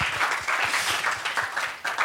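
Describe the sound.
An audience gives a warm round of applause to welcome a guest at a talk. Dense, even clapping from many hands continues throughout.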